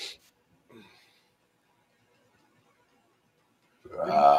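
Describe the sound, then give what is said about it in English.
A single loud, voiced burp at the very end, preceded by near silence with a couple of faint short noises. “How dare you just burp on while we're live on the air? Ugh. Get the air bubble out, buddy.”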